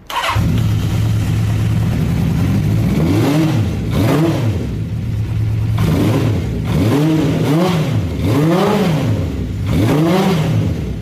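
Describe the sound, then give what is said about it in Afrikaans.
A Honda CB650 motorcycle engine, recently fitted with a new battery, idles steadily and is revved repeatedly, each rev sweeping up and back down in pitch. The revs come in a loose run with no talk over them. “en ons kan sommer nou luister na hoe klink hierdie CB650.”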